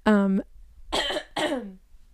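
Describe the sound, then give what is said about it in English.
Hoarse coughing from a person whose voice keeps giving out from allergies: a sustained voiced throat sound, then two short, rough bursts with a brief gap between them. “So forgive me if my voice gives out or if you hear coughing in the background.”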